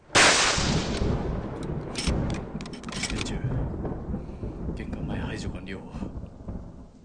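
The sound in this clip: Gunfire in a radio drama opens with a loud, sharp burst, then gives way to a dense, rumbling roar. A few further sharp cracks punctuate the roar before it slowly thins out.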